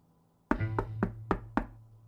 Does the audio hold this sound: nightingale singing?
no

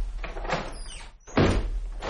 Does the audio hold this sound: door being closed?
yes

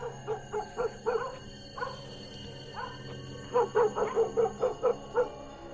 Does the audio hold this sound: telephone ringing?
no

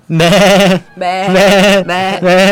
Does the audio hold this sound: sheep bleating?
yes

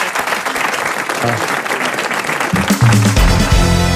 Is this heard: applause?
yes

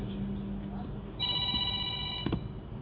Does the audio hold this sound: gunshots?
no

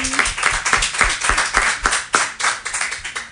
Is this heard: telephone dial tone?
no

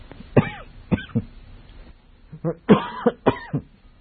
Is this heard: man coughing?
yes

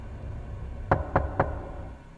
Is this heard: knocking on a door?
yes

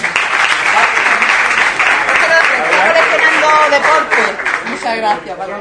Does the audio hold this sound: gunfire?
no

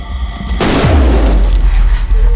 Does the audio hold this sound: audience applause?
no

